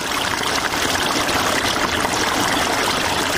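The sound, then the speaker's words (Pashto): Irrigation water flows steadily into a pomegranate orchard in the Spedkhar area near Tarinkot, Afghanistan. The rushing, trickling wash is loud and unbroken throughout, with no voices. “سیف الله د ترینکوټ ښار اړوند د سپیدخار په سیمه کې د انارو پر باغ اوبه لګوي.”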